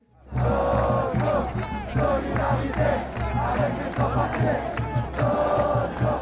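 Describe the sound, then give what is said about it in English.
A crowd chants to welcome immigrants at a Portland, Oregon rally in November 2017. Loud, rhythmic bursts of shouted voices repeat in a steady cadence for several seconds. “It's in Portland, Oregon, and this is a chant of people actually welcoming immigrants to the USA.”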